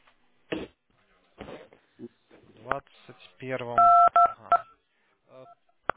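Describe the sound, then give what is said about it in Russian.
Telephone keypad buttons pressed during a phone call send a few loud DTMF beeps in quick succession, each a short steady two-tone chirp, with people talking on the line before and after. “У вас кнопки нажимают на телефоне, вас не слышно.”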